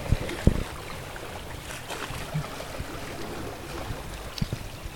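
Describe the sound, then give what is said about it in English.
Water sloshing through the pipes of a wave organ in San Francisco at high tide: a faint, steady gurgling wash with a few soft, low knocks. “Some more wave organ sounds for you on this Thursday morning. Oh, it's high tide.”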